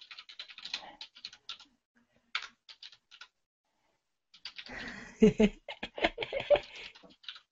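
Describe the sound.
Computer keyboard typing while working in the Emacs text editor: scattered soft key clicks in short runs, a pause, then a denser, louder flurry of taps that may carry some voice.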